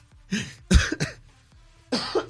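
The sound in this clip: Coughing from someone sick with the flu: a few harsh, chesty bursts separated by short pauses, with some throat clearing mixed in.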